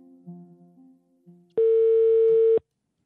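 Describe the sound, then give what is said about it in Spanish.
Ringback tone of an outgoing telephone call: a single steady electronic tone lasting about a second, loud and alone, following a quieter stretch. “Llamé a Roberto Rojas para saber su perspectiva sobre todo esto, pero no quiso hablar.”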